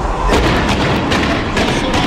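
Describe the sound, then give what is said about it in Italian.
Tear gas canisters fired from a police van at protesters in a street: several dull, booming thumps that blend into a loud, continuous roar of noise. “ha iniziato la camionetta a sparare i lacrimogeni contro contro i manifestanti, lo state vedendo in diretta.”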